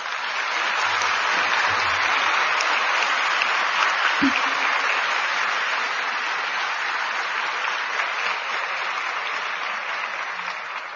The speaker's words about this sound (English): I think this truly deserves a second round of applause.